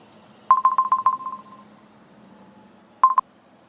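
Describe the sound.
An incoming call rings on a phone as a quick burst of rapid electronic pulses, followed by a second, shorter burst, with a faint steady high tone underneath.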